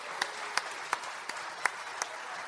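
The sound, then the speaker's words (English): Audience applause for children dressed as shepherds at a Christmas Eve children's service: steady dense clapping, punctuated by a few sharper, louder claps. “Great job, shepherds. Give the shepherds a hand.”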